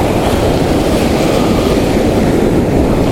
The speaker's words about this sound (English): Oh my goodness, that wave came up to me. I think the tide may be coming in, not going out.